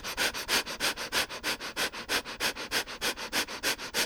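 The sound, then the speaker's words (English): Rapid sniffing breaths during an energizer breathing exercise, a long, steady run of many quick, evenly spaced nasal sniffs, breathy and moderately loud, with no voices. “At the top, we'll do the energizer breathing, hold for a moment, and then we'll roll back down to the floor. Inhale up, hold. And energize your breath.”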